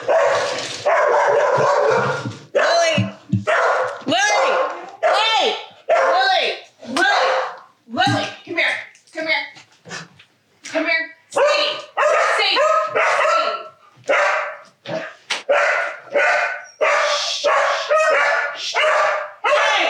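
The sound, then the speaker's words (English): Dogs bark excitedly to welcome a man from Mellow Mushroom: many rapid, loud barks in an overlapping burst, mixed with high yips and whimpers, going on almost without pause. “That's what it sounds like when our dogs welcome the”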